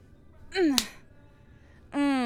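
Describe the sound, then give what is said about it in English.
A single sharp slap of a hand on bare buttocks cracks out once, brief and bright, set between two longer voiced sounds that slide downward in pitch. “I think that's all the spanking you need.”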